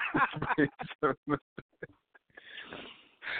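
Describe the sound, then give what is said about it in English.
Sniffling from freezing cold weather: a run of short voiced bursts is followed by a long, breathy, noisy inhaled sniff, fairly close and clear. “I'm sniffling like a motherfucker.”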